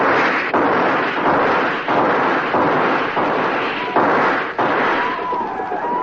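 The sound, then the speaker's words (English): Men fire guns in a battle against attacking Apaches. Loud, dense volleys of gunshots crackle and boom almost without pause, with many overlapping shots in an unbroken barrage. “Hold your fire. Now hold it. Fire!”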